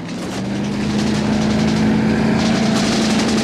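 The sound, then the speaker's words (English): Boat engine powering away across a lagoon, a steady, loud motor drone that holds evenly for the whole stretch with no voices. “The boat powers away.”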